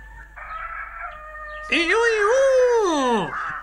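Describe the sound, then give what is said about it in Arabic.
A rooster crows once: a long, loud cock-a-doodle-doo that holds steady and then drops in pitch at the end, after a softer sustained tone. “وفي هذه الأثناء عاد ديك وبصحبته أرنو، ولما شاهد بنفسه ما يجري صاح وقال:”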